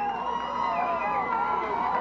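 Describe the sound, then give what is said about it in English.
Baseball crowd noise from a Big 12 postseason game: fans cheering steadily to rally their pitcher. A sustained, moderately loud wash of mixed voices holds without a clear peak. “Bontac crowd trying to rally their pitcher who's going to stay in,”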